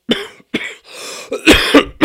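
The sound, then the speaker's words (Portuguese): A person coughing during a talk, with a quick series of harsh, dry coughs and a short raspy breath in the middle, loud and without speech. “Agora a tosse pegou, né? Agora a gente não para de tossir.”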